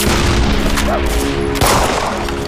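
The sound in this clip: Gunfire during a wartime fight against enemy soldiers: a dense, unbroken roar of shots and booms runs through the whole clip, with a sharper, louder burst about two-thirds of the way in.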